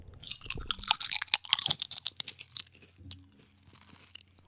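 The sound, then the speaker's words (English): Crunching and chewing of sour cream and ranch potato chips, with many crisp crunches, loud and dense at first, then softer, sparser chewing toward the end. “I'm going to get into the chip eating ASMR.”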